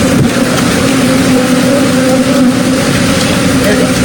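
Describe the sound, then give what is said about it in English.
Millions of bees swarm out of a crashed semi truck, making a dense, loud buzzing drone with a steady low hum that runs without a break the whole way through. “That's the sound of millions of bees escaping a truck.”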